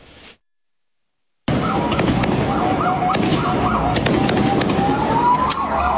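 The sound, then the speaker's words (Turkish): Fireworks set off at night begin after a brief moment of quiet, then burst into dense, continuous crackling and popping with high whistling tones woven through the noise. “Havai fişek ateşlediler gecenin bir saatinde.”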